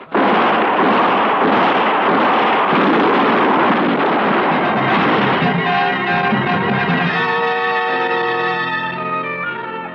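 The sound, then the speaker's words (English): Gunfire during a fight at night swells into a loud, dense, continuous roar of blasts that slowly thins out, with ringing tones emerging as it fades. “Shoot them, for Lord's sake, don't miss. Shoot!”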